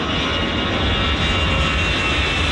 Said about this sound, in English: for not hearing anything over the sound of hundreds of flights taking off